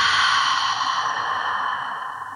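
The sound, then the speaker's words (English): Deep breathing during a calming exercise, a long airy rush of air that starts loud and slowly tapers off as the breath runs out. “Take a deep breath in through your nose. And exhale.”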